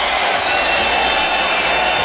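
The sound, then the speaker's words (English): Concert crowd cheering as a band retakes the stage, a continuous, dense roar of many voices that holds steady throughout with no clear breaks or peaks. “Plenty of cheering going on.”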